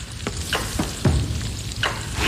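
Lard sizzles after being added to a hot pan, giving a steady, bright frying hiss. A few short scraping stirs cut through it at intervals.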